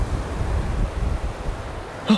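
Wind and waves of a raging sea make a continuous loud rushing roar, with rumbling low gusts rising and falling throughout.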